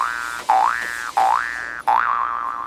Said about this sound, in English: I can't really see what's wrong with it. I guess I'm going to have to hit it with a hammer.